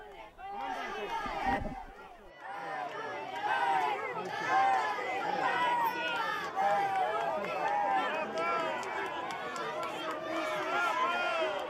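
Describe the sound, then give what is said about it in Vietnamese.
A large crowd of pilgrims, including school groups from Italy and across Europe, shouts and cheers to welcome the Pope. Many overlapping voices form a loud, sustained roar of shouting and chatter. “Chúng ta đang nghe thấy những tiếng hô hoan hô chào đón Đức Thánh Cha Papa.”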